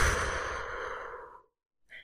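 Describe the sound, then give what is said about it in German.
A deep breath in and out: one long, breathy sigh that trails off, followed after a short silence by a brief, quieter breath. “Atme jetzt einmal tief ein und wieder aus.”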